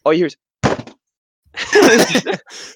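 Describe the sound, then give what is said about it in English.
A voice imitating a basketball clanking off the rim in an empty arena with no fans, a few short, punchy vocal bursts separated by brief silences, loud and close. “Lonzo Ball was garbage. He was so bad. And it was so funny hearing him clank all those shots because there's no fans. And all you hear is,”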